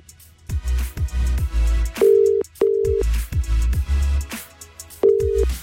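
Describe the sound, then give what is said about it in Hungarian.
The ringing tone of an outgoing telephone call: three clear, mid-pitched beeps, two in quick succession and a third after a pause, with low rhythmic thumping underneath. “Szóval most a párjánál Ferinél csörgök.”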